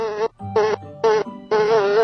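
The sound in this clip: A struggling fly buzzes in four separate bursts, each a steady high-pitched whine, with short gaps between them and the last burst the longest. No other sound accompanies it.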